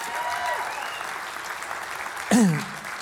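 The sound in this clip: Audience applause at a church service welcoming a group from a Women's Teen Challenge Center: even, sustained clapping, with a voice rising briefly over it near the end.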